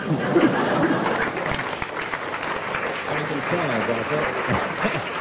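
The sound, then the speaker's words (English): Audience applause for a comedy panel show, a dense, steady clatter of clapping that lasts throughout, with a voice starting to speak over it in the second half. “10 marks there for the audience's rapturous reception of that one.”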